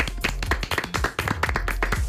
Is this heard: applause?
yes